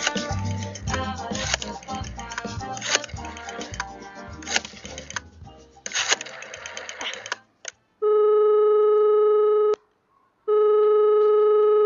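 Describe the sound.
A phone call being placed to a mansion in Transylvania: after a busy music jingle, a few brief clicks lead into two long, steady telephone tones separated by a short silence.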